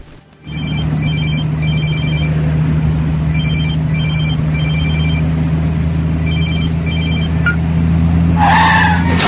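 A mobile phone rings in repeated bursts of electronic trills over the steady low drone of a car engine while driving, and a brief screech of skidding tyres follows near the end.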